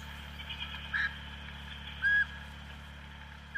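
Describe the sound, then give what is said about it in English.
A few short chirping calls from New Zealand storm petrels in coastal forest at night. Each is a faint, brief high note rising at spaced intervals out of a steady low hum, with no voices. “And down near the coast is a patch of forest that is ringing with the sound of bird calls. Now that's the sound of New Zealand storm petrels,”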